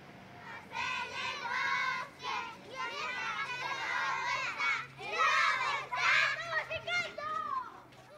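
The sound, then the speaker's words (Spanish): Children shout and play chase in a street on a cold, snowy winter day. Many excited high-pitched voices overlap in continuous bursts of yelling and calling. “Si oye ruido en la calle, a veces se asoma por el ventanuco y contempla a los niños, que se distraen gritando y pillándose unos a otros.”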